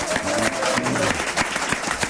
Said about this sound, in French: on peut les applaudir.